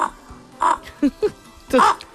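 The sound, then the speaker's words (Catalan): A contestant in a bird-song imitation contest mimics a bird with only their own voice and no device, giving a few short, hoarse, squawk-like cries separated by brief pauses. “ells han d'imitar amb la seva pròpia veu el cantant d'un ocell, sense cap aparell, no hi ha cap ajuda, són la seva veu imitant un ocell, com per exemple aquest”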